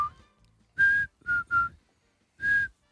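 A person whistles a tune in clear, bright notes: one long note, two quick short ones, then another sustained note after a pause, with a faint softer note at the start.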